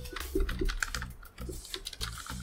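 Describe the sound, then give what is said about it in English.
A few sharp key presses entering a four-digit code on a keypad, clicking in short uneven taps against a busy background. “You type in 4872. Pops right open.”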